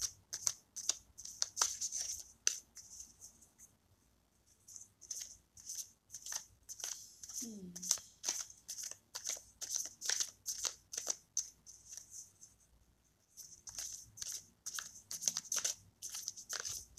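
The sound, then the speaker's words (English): A tarot deck is handled as a card is pulled, with many crisp, papery card flicks and snaps in quick bursts separated by brief quiet pauses. The sound is soft, and no one speaks. “But we have one more card to pull. And so we will pull the weatherman, an additional element of clarity.”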